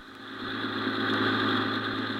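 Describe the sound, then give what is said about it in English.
The engine of a free sightseeing bus touring the city drones steadily at a mid pitch. It swells slightly and holds a constant, rumbling tone with no voices over it. “Just another day to send their free sightseeing bus on a tour of our fair city. So let's go back a few hours and board one of these buses as it makes its way around our glamorous”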